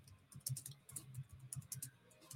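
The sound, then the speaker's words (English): Faint keyboard typing: many quick, irregular keystrokes and clicks tapped out in short bursts, soft and alone. “Hold on, let me type this.”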